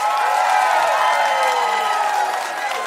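A studio audience cheers and applauds as a guest walks on, a dense, steady wash of clapping mixed with whoops and shouts that stays loud throughout and eases only slightly at the very end.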